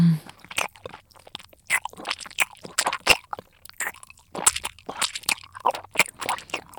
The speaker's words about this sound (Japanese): 唾液を口に溜めたまま咀嚼して、